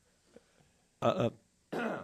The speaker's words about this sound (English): I haven't spoken this whole time, so I had to clear my throat.